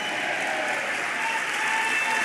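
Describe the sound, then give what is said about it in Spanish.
A church audience claps along during a worship service, a dense and steady wash of many hands with no pauses, fairly soft and with no talking over it. “Vamos, dele palmas, dele palmas al Señor.”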